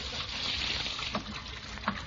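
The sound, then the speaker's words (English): Water running from a tap while someone washes their hands: a steady, full rushing hiss with a couple of faint knocks partway through. “Leroy, what are you doing in there? I'm washing my hands.”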